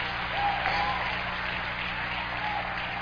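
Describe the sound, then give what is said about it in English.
A church audience claps their hands during a sermon, making a steady, dense wash of applause that holds at an even loudness throughout. “Go ahead, clap your hands, somebody.”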